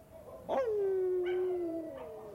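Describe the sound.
A Great Dane howls in fog over a London neighbourhood: a single long howl that breaks in sharply, slides down in pitch and then holds a steady tone before trailing off, with no other sound around it.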